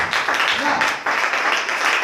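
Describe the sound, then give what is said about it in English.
A church audience clapping their hands for Jesus: energetic, dense clapping with a brief dip midway and a voice rising briefly over it. “Oh, can you clap your hands for Jesus?”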